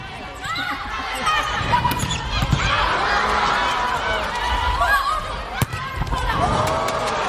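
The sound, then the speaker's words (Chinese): Volleyball serves open a women's volleyball match between China and the Philippines, with a few sharp ball impacts sounding through steady, loud crowd noise. “好，全场比赛开始是由中国队来率先发球，二传手张子萱”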